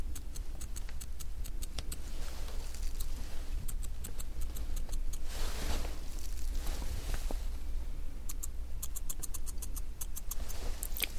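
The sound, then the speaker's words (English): Scissors trim long eyebrow hairs during brow grooming: faint, crisp clicking snips come in quick bursts, separated by quieter stretches. “let me comb upwards. Upwards like that. And just cut up here a little bit. You have long hairs up here as well.”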